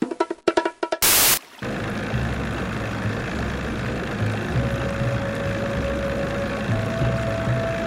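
Motorboat engine idling on a lake before departure: a steady, low, even hum runs throughout after a brief burst of noise at the start.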